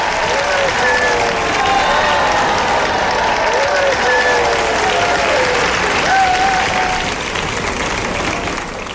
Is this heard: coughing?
no